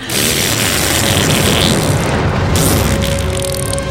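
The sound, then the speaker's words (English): A Star Trek gas geyser eruption used as a giant flamethrower effect, a loud, sustained roaring rush of noise with a deep rumble underneath, steady throughout with a hissing surge near the end. “And then they do like that run toward the camera as a giant flamethrower gets shot at them. The gas is building up.”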